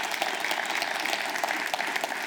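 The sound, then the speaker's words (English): A church audience gives a warm round of applause for the worship leaders, steady dense clapping at a moderate level from start to finish, with no voices. “How about a warm round of applause for John, Mark, and Jay leading us in worship today?”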